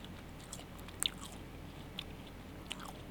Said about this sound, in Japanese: ああ香りは、あ、いいなこれパン。いただきます。